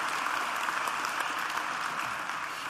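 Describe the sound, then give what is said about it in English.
A church audience applauds to welcome guests, a fairly faint, even patter of many hands clapping that carries on steadily for the whole stretch with no voices over it. “Hey, Bridge family, can we put our hands together and welcome all of our guests to church today?”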